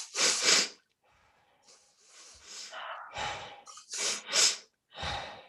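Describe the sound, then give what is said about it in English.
Sharp paired inhales through the nose followed by long, sighing passive exhales, done as a guided breathing exercise. The double-inhale-and-release pattern repeats over a few rounds, with short quiet gaps between the breaths. “So you double sharp inhale twice and release exhale. Okay, so active inhale, passive exhale with the sigh.”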